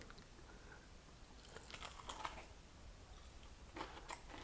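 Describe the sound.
Faint crunching as someone bites into crunchy KFC-style fried chicken, with a few crisp crackling bursts standing out against a quiet background.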